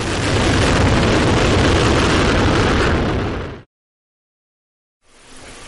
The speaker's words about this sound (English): 4, 3, 2, 1. And engines start and lift off of the Delta II rocket